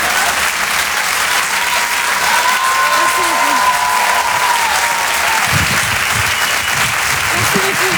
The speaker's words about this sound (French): On peut l'applaudir très fort, Marine Bauson